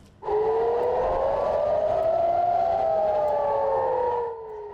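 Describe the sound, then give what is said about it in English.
Civil defense sirens blare near Israel's northern border with Lebanon. Loud, sustained wailing tones overlap, one gliding slowly upward while another glides down, with no voices, before fading slightly at the end. “sirens blared and smoke billowed near Israel's northern border with Lebanon as Hezbollah launched a barrage of drones for a second day.”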